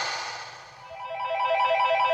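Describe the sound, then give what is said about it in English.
A telephone ringtone plays as part of a song: a bright electronic ringing that steadies into a pulsing, repeating tone pattern. It is moderately loud and heard alone, with no voices. “Hey, whose phone's ringing? Oh, it's mine. Hang on, let me just get rid of that. Just kidding, it was part of the song.”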